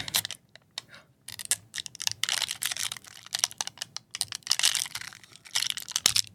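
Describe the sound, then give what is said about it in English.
A coffee packet's wrapper peels away from its foil layer, giving many irregular crinkles, crackles and small ticks in quick, uneven bursts at a fairly quiet level. “You gotta love when the wrapper separates from the foil. That's what happened.”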